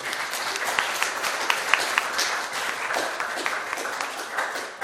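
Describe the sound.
An audience at a church service applauds. The clapping is dense, even and sustained throughout, with no voices rising above it.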